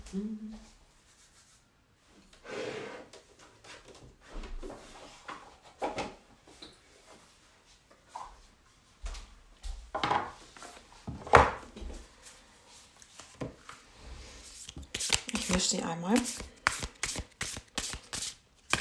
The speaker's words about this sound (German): Passend dazu werde ich jetzt mal eine Karte ziehen und die von meiner Akasha-Chronik deuten lassen.